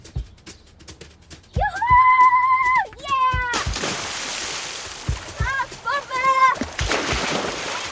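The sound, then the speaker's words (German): Children cannonball into water in a children's audio drama. A sudden loud splash crashes in after sliding whooping voices, followed by more splashing and excited voices. “Ihr könnt nackig reinspringen oder in Unterhose.”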